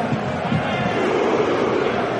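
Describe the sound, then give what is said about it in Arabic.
A stadium crowd of Norwegian football fans roars out their famous cheer at a World Cup match against France. The massed voices form a continuous, even wall of sound with no clear breaks. “شوف الحركة الشهيرة، تشجيع الأشهر هنا في هذا المونديال للجماهير النرويجية.”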